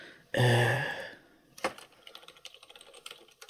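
Typing on a computer keyboard: one sharp clack followed by a run of light, irregular keystrokes, faint and sparse.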